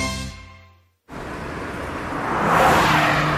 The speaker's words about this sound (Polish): Nadjeżdżają święta wielkiej mocy. Napędzane nową mocą. Nowa Honda HR-V. Teraz z nowym silnikiem 1.5 Turbo.